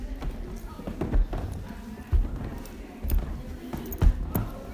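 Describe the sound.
Footsteps climb oak stairs in a series of heavy, regular thuds roughly a second apart, each a dull knock against a faint background.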